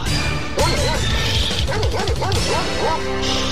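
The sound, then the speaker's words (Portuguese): Rottweiler barking rapidly and loudly, many harsh barks mixed with yips and whimpers over dense background noise. “Super Rottweiler. O cachorro doido do Pará.”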